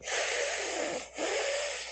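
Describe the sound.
A hissing breath drawn in through the teeth and along the sides of the tongue during a breathing exercise: two long, airy, sibilant hisses separated by a short break, steady and fairly strong.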